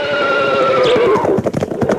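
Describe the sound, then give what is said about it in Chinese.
A war horse whinnies over a steady rush of sound, then crisp hoofbeats break in as a quick, loud run of clattering strikes that carries to the end. “一阵清脆的马蹄声从身后传来，打断了他们的谈话。”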